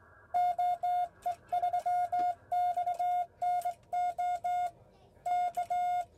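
Radio telegraphy Morse code sending the general call CQ repeatedly, a clear steady beep keyed in groups of long and short tones separated by brief pauses.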